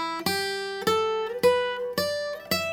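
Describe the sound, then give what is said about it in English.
Guitar picking through an E minor pentatonic scale: five clear plucked notes at an even pace, each ringing bright and sustained before the next, the pitch climbing step by step. “I'll just play through the E minor pentatonic scale so you can kind of see what I'm talking about. It sounds like this.”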